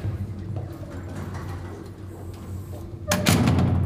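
Door of a box used as an interrogation room being opened: a steady low hum runs throughout, then a sudden loud mechanical clunk with a rush of noise near the end.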